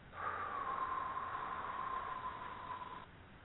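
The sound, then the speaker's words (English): A breath drawn in through the nose and let out through the mouth: one long, airy breath with a thin whistling tone running through it, soft and steady for about three seconds. “You breathe in through your nose, and you breathe out through your mouth.”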